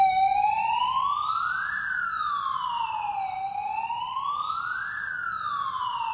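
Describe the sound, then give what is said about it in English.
A wailing siren alarm sounds aboard a Navy warship during testing of the ship's alarms. Its steady, loud tone sweeps slowly up and down in pitch through two full rise-and-fall cycles, with no voices. “As they go through testing all of the ship's alarms, spinning up the radar, that Spy 6 radar that's super advanced.”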